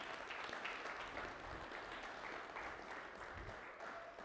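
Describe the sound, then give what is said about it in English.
Faint applause from a church audience during a service, a continuous patter of many hands clapping at an even level with no voices over it. “I think Paul and Maureen deserve a big round of applause for that”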